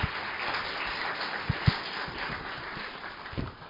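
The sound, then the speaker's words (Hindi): Applause for performers at a spiritual retreat program, an even, dense wash of clapping from the audience with a few louder individual claps popping out. “इसलिए इन दीदियों के लिए जोरदार तालियां बजाएं,”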